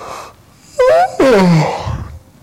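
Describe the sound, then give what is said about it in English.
A voice imitates a yawn with two drawn-out vocal sounds; the second is longer and slides downward in pitch before trailing off. “I knew I'd cause somebody to yawn.”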